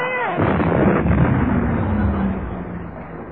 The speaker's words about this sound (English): What was that? That was a special effect. Oh, an explosion.